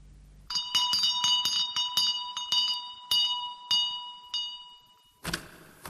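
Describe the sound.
A bell rung to summon a butler chimes in a quick run of many bright metallic strikes, each ringing with sustained high partials, followed by a short burst of harsh noise at the end.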